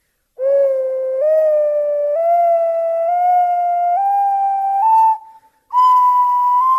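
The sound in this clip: An ocarina played by a beginner: a pure, breathy whistle-like tone climbing a scale in several sustained steps, then a short break before a final higher note.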